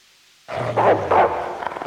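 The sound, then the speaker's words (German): Dogs bark in a hall, with a few loud, rough barks over a low steady drone that starts suddenly from silence. “Drunten in der Halle windet's von Hunden, die sich nicht bändigen und nicht vertreiben lassen.”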